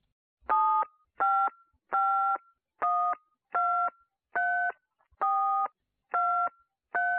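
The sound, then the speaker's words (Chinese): A telephone keypad gives touch-tone beeps as its keys are pressed in order from one toward zero. Nine short, distinct dual-tone beeps come at a steady rhythm, each a different pitch combination, with silence between them. “请您将您电话上的键子从一按到0。 小弟照做”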